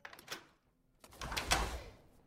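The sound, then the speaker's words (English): A butler opens a door: a few short light clicks, then after a brief pause a louder, longer sweeping sound that swells and fades over about a second. “Nick's butler answers the door.”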